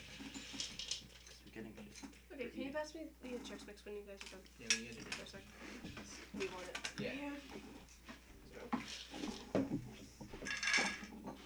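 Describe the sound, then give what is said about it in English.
Dishes clatter as a bowl is grabbed: light clinks and knocks of crockery and cutlery, intermittent and soft, mixed with several people talking. “Alright, give me a second. I just want to grab a bowl. What? I'm just grabbing a bowl.”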